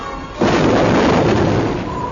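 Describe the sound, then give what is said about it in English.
A fighter cockpit hull cracks open and the ejection seat blasts free: a sudden loud explosive boom that swells into a sustained, rumbling roar lasting to the end. “He punched a button on the control panel that cracked open the right side of the cockpit, splitting the hull and blasting free the tacked-on passenger seat.”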